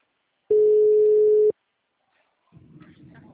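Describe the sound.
A telephone ringback tone heard while calling a customer from a bank, one steady low beep lasting about a second, followed by silence and then a faint voice beginning.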